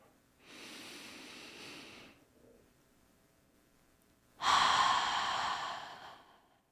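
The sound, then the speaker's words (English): A deep grounding breath taken slowly: a long, soft, airy breath sound, then a quiet pause, then a second, louder and longer breath that tails off. No talk is heard. “let's just start by grounding ourselves, and we can get this minute together with a nice, deep, grounding breath.”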